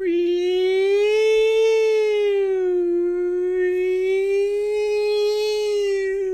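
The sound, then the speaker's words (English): A human voice imitates a police siren, a clear tonal wail that slides slowly up and down without a break, heard alone. “wee woo, wee woo, wee woo, wee woo. That's my police siren sound.”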